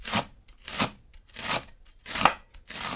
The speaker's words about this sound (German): Das Messer ist frisch geschliffen, das ist übrigens das Wichtigste, ein scharfes Messer. Und dann schneiden wir den Porree mal so in mittelgroße Stücke.